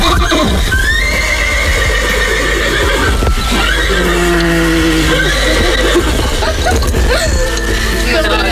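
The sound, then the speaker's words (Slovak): A horse neighs repeatedly. Several loud, wavering whinnies rise and fall over a steady, noisy background. “Ešte keby koník chcel povedať, no povedz niečo.”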